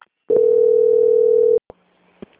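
Steady single telephone tone as a bank call is transferred to quality control, one even mid-pitched beep held for over a second, followed by a couple of faint clicks.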